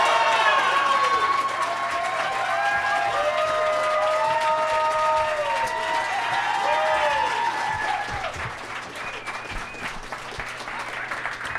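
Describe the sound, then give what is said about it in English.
Applause and cheering from a comedy show audience welcoming comedians on stage: a dense, steady wash of clapping with whoops and shouts that eases slightly in the last few seconds. “Let's get them out here. Please give a big warm welcome”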